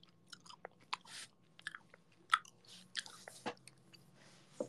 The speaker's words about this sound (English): I'm eating a chocolate cracker.